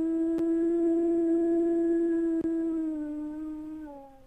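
A dog howls as a fire truck goes by, holding one long, steady tonal howl for several seconds that dips slightly in pitch near the end.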